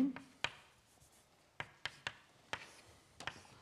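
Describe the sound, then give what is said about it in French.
Writing out the terms of an equation during a lecture: faint, sharp taps and scratches in an irregular series, separated by quiet pauses. “Donc je vais écrire les quatre termes qui apparaissent.”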